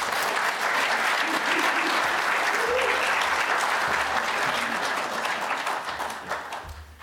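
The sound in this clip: Sustained applause from an audience welcoming a pastor to the stage at a New Beginnings church gathering: dense, steady clapping that holds loud for several seconds, then thins and fades toward the end.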